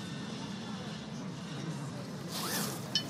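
A bag being unzipped and opened: a brief zipper rasp near the end rises over a low, steady background hum, ending with a small sharp rustle.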